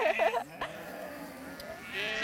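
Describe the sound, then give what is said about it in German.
Sheep bleating after climbing out of a trailer toward a flock: one short, wavering bleat at the start, followed by quieter rustling and faint background noise. “Nach einem kurzen Zögern sind die Schafe aus dem Anhänger geklettert und gleich auf die Schafherde zugelaufen. Darf ich vorstellen? Schafe, Schafe.”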